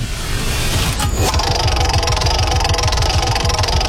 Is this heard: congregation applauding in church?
no